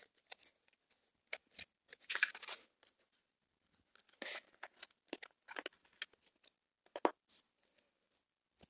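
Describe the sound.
Tarot cards are shuffled and pulled from the deck: many quick, crisp papery riffles and flicks in irregular bursts, with two longer flurries of shuffling among the short snaps, and no talking.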